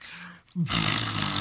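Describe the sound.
A voice imitates a faulty computer power brick that runs loud like a motorboat. After a short quiet dip comes a loud, steady, buzzing growl that holds to the end.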